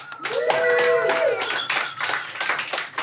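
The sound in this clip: An audience claps to welcome speakers at a data science talk. The brisk, uneven claps run for about three seconds, with a voice briefly heard alongside.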